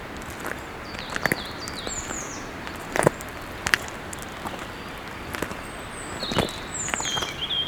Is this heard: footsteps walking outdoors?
yes